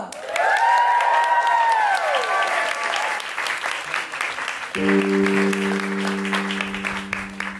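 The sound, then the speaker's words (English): Loud audience applause with cheering at a live show as the opening act is welcomed to the stage; sustained musical chords come in over the clapping during the second half. “Please welcome to the stage to open the show, Maz O'Connor.”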